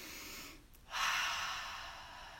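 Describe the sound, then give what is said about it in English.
A deep breath: a quieter airy first half, then a louder, breathy stretch that slowly fades away. No one speaks. “Let's take a breath.”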